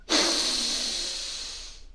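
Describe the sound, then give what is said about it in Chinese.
A long, deep breath drawn in during a children's breathing meditation, a breathy hiss that starts abruptly and slowly fades over nearly two seconds, with no talk over it. “来，深深的吸气。”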